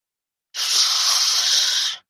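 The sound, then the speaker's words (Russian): A cat hisses once, a sustained, breathy hiss of about a second and a half. It is loud and stands alone between stretches of silence. “Кошка зашипела и тут же начала долбить кота лапой по башке со смешным глухим звуком.”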